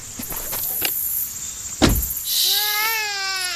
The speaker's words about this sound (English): The Nissan Rogue. Drive it. Use it. Rev it. Push it.